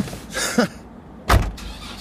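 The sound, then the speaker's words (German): A car pulling away, heard as two short whooshing engine bursts, the second louder and sharper, over a low steady hum with no talk. “Rudolf August Oetker schaut dem Auto des Kapitäns hinterher.”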